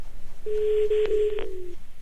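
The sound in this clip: A telephone rings on an outgoing call: one sustained, fairly low electronic tone of just over a second with a brief click in the middle, over steady line noise.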